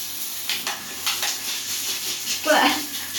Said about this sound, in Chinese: 你让一下，我把水打开。